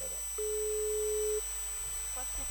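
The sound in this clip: A telephone line ringing unanswered, heard as a single steady ringback tone of level pitch lasting about a second, over a faint constant hum, then quiet line noise.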